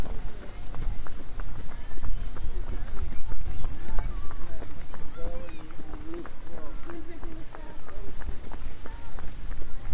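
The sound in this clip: Quick, rhythmic footfalls of a person running outdoors in wind, a steady stream of impacts over a rough rushing background, with people talking throughout.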